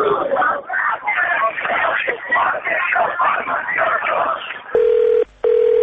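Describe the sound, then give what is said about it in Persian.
Telephone tones as a call is placed to a street celebration in Shiraz: steady talk runs first, then two loud, even beeps sound, separated by a short gap. “شیراز زنگ میزنیم به ظاهرات پیروزی ها.”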